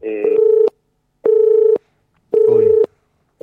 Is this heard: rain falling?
no